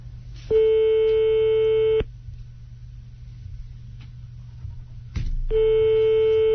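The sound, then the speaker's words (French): A telephone busy tone after a call is hung up: a steady electronic tone lasts about one and a half seconds, then faint line hiss, then the tone returns and holds to the end. “Si, vous avez raccroché, la communication a été interrompue”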